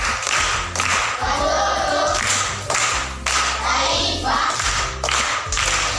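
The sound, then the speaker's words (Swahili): Clapping from a group of schoolchildren applauding a pupil after a riddle is answered, dense irregular hand claps with some thumps, fairly steady throughout and moderately loud. “Makofi kwa shangazi yake.”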